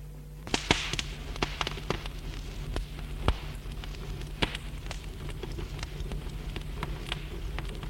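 Fire crackling as books burn in a fireplace: many sharp, scattered pops and snaps over a steady low hiss.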